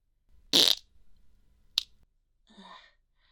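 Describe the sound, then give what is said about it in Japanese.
A fart breaks out as one loud, brief raspy burst, followed by a faint click and a softer, shorter rasp a moment later. “おならしちゃった。ああ、出る。”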